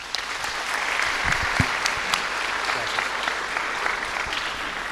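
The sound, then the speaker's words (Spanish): Applause from an audience at a religious gathering: dense, even clapping that holds at a steady, fairly loud level for the full five seconds, with no clear talk over it. “un aplauso para el hermano.”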